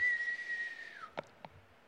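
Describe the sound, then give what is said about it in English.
A voice imitates the whistling of a thrown foam vortex ball: a sustained, fairly loud whistle that dips in pitch near its end, followed by two short, sharp sounds. “Now, the vortex balls were the best because they make a whistling noise. And you throw the vortex and you hear,”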